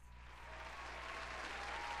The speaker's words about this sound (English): Applause for yourself. Applause for yourself.